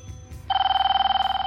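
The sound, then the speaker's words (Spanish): A telephone ringing unanswered: after a brief quiet moment, a bright electronic ring starts abruptly and trills in a rapid, even pulse until the end. “Poco después, su esposa vuelve a marcar para asegurarse que todo está bien, pero Chris no contestaba.”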